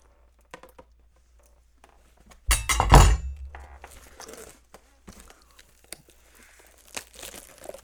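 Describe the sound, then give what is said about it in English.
Sports card pack being torn open: a loud rip and crunch of the wrapper, then softer, scattered crinkling and rustling, faint overall. “I'm going to cram this. And open some sports cards. If I don't cut my finger off.”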